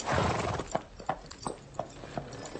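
A horse's hooves clip-clop as it walks on at a stable during a riding lesson, a steady, even series of hard strikes.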